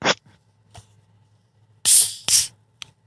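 A bottle of vanilla Coca-Cola being cracked open, giving two short, sharp hissing bursts of escaping gas after a couple of faint clicks.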